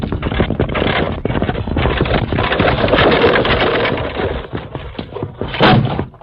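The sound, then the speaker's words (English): A runaway wagon wheel rolls down a deep ravine toward a sandy trail, making a loud, continuous rumbling and clattering with many rattling knocks that swells again near the end. “Evidently a runaway wagon wheel.”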